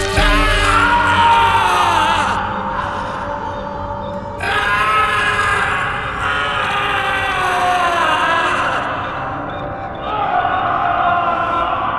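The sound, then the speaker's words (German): A man's scream of horror and pain as an ice axe strikes his skull, a loud, sustained and strained bellowing cry that wavers for several seconds with shifts in pitch and intensity, with no spoken words. “Der Schrei des Entsetzens und des Schmerzes erschütterte die Fundamente der Festung in der Calle Viena.”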